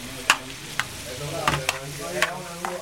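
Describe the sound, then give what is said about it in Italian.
Onions and zucchini fry in oil with salt, giving a steady soft sizzle broken by several sharp scraping stirs spaced irregularly through the pan. “Prima cipolle, olio, cipolle, metto un poco di sale e poi le zucchine.”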